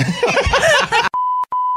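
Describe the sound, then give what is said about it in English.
A censor beep, a steady pure mid-pitched tone, cuts in right after chuckling and chatter. The beep is briefly broken twice before it ends. “Now we had to beep that.”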